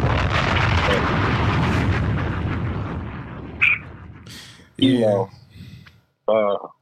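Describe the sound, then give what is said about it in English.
A bomb-drop sound effect lands as a loud, broad explosive rumble that slowly fades over about four seconds. Afterward, people talk. “We got to drop one of Clue's bomb for you switching jobs like that, man.”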